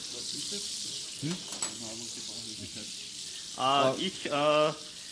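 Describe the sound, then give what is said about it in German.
Apple slices fry in a pan for pancakes, giving a steady crackling sizzle under voices speaking. “Kurz zum Kochen, ich brate jetzt die Apfelspalten an, also die Äpfel, die wir da in den Pfannkuchenteig gegeben haben.”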